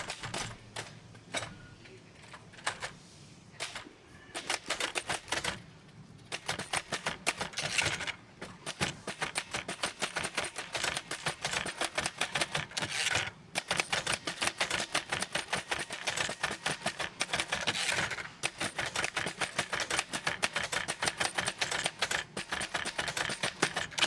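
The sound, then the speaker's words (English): Rapid, steady typing on a keyboard: many quick, crisp keystrokes run almost without pause for the whole stretch, with no voices over them. “The artist begins to studiously type.”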